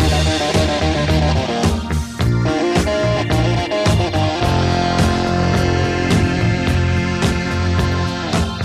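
A band's pop song featuring a left-handed bassist plays loud and continuously, with a driving bass line, a steady drumbeat and a full band, and no talk over the music.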